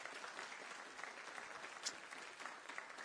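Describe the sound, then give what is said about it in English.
Audience applause welcomes the deaf interpreter at a ministry gathering, a fairly quiet, even wash of clapping that continues steadily from start to end. “And so welcome to the deaf interpreter today. Let's give her a big hand. Can you do that?”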